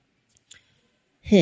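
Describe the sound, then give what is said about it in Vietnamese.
A chest being unlocked with a click: a faint tick, then a sharper, brief click, and a voice begins speaking at the end. “Trần Thực nhanh chóng mở khóa rương, kèm theo một tiếng đát, cái rương lần thứ hai được mở ra.”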